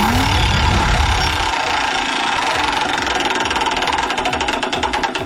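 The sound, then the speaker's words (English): A prize wheel spins for a game segment, giving a rapid, regular mechanical ticking over a dense, steady wash of sound. The ticks stand out more sharply toward the end. “Let's spin the wheel and see what game we're going to play.”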